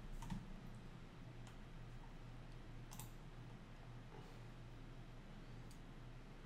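Keys clicking as someone types a search on a computer keyboard: many light, scattered keystrokes over a steady low hum, with no voices.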